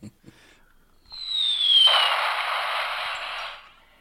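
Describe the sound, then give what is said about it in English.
A firework goes off on New Year's Eve: a whistling tone falls slightly in pitch, then a loud, sustained hissing crackle lasts about two seconds before cutting off. “Now there's some fireworks.”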